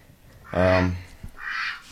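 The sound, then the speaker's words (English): A live duck quacking in a studio: a loud, nasal, buzzy call with a clear harmonic ring, followed a moment later by a shorter, raspier, higher call, with no talk over them. “Yeah, he has a lot to say, this duck. We have a duck in the studio!”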